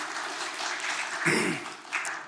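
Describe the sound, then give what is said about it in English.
An audience claps for visitors at a church gathering, producing a steady wash of applause that holds at an even level with a slight swell in the middle. “Let's give them a big hand clap, please.”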